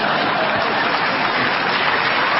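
Applause from an audience, a dense and steady wash of many hands clapping that holds at an even, fairly loud level for about two and a half seconds without a break.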